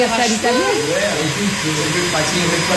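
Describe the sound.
A small vacuum cleaner runs with a steady, continuous motor whir that lasts the whole stretch, while voices talk over it.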